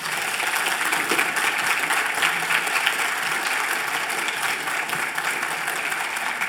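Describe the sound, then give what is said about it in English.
A church audience at Fort Caroline applauds to welcome a new interim pastor, a dense, even clapping that holds steady throughout. “Can you give him a hand, please?”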